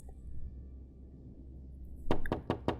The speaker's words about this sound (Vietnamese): Tiếng gọi dồn dập kèm theo tiếng đập cửa rầm rầm